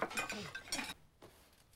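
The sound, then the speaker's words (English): Faint clinks of plates and cutlery as Grandma dishes out dinner: a few light, bright taps and chinks in quick succession, then a quieter lull with one more soft clink. “Grandma dishes out dinner.”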